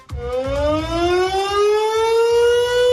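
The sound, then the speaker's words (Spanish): Air raid sirens wail during a bombing anniversary commemoration. A single loud, continuous tone climbs steadily in pitch and holds strong throughout. “las sirenas acaban de sonar de nuevo en el 90 aniversario del ataque aéreo en el que fallecieron 61 personas”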